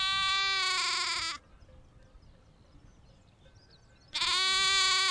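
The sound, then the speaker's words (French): Lamb and ewe bleating: two loud, harmonic, nasal bleats separated by a quiet gap of nearly three seconds, with the second bleat cut off at the end. “J'ai provoqué le bêlement de l'agneau et de la mère.”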